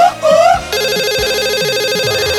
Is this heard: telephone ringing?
yes